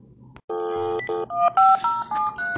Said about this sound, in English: We're gonna try calling him one more time here.